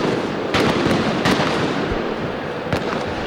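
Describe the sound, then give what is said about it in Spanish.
Firecrackers and fireworks going off near a football stadium before a final: dense, continuous crackling and popping with a few louder, sharper bangs standing out, loud throughout. “las bombas de estruendo que suenan en las inmediaciones del estadio, fuegos de artificio, bengalas también.”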